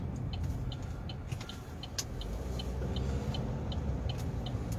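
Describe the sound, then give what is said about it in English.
A car drives with a steady, low road rumble throughout, and a faint, regular high ticking sounds above it. “Forgive me here, I'm trying to pay attention to my driving.”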